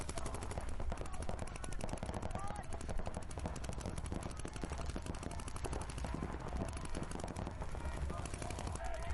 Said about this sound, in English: Just getting fucking shot all over the place. I don't know where it's even coming from.